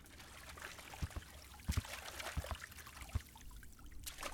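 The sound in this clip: Water in a bathtub trickles and dribbles softly, with faint scattered drips and small splashes over a low, continuous wash.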